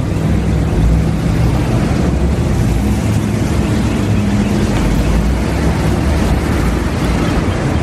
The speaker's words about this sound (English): Looks like the motorcade just pulled in, so they obviously went in a way that they couldn't be questioned.